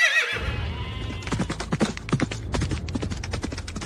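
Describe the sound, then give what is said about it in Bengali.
A horse galloping through a Kumaon jungle, a brief high neigh at the start, then many rapid, loud hoofbeats in a steady driving rhythm. “ঘোড়ার খুরের আওয়াজের সঙ্গে সঙ্গে গোটা কুমায়ুনি জঙ্গল কেঁপে ওঠে।”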